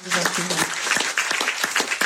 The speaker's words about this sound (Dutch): Welkom, minister van Gennep, geef haar een applaus.